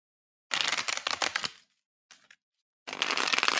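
Tarot cards being shuffled and drawn: a dense, crisp riffle, a brief flick after a pause, then another loud run of riffling to the end.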